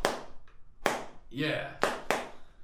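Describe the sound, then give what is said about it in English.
Sharp, clap-like smacks from packing a Timberwolf chewing tobacco can, four crisp hits spaced irregularly, with a brief voice heard between them. “So here is the sound of the Longhorn can. Well, actually, this is Timberwolf, so it's going to have to... Different it's, timber. It's not the same as the Longhorn, but here you go.”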